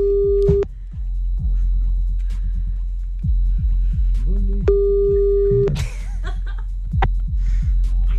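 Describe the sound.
Two steady, mid-pitched beeps of an outgoing telephone call's ringing tone sound several seconds apart. Between them, people chuckle and laugh quietly over a low hum.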